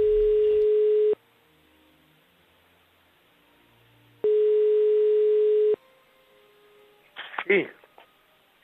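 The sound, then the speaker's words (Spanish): Telephone ringing tone on an outgoing call: two long, steady electronic tones separated by a silent pause of about three seconds, followed by a brief, fainter burst of other sound at the end. “Mira, estamos llamando, díselo todo, ¿eh?”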